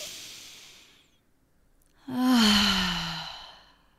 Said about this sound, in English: breathing some deep breaths, inhaling through the nose and exhaling it out. Deep full breaths.